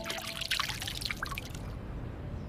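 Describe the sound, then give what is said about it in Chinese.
Excess oil rendered from pork being poured out of a frying pan: a steady liquid trickle with light dripping that runs continuously and thins out toward the end. “把这个油逼出来以后啊，它外焦里嫩嘛，咱们倒入这个多余的油。”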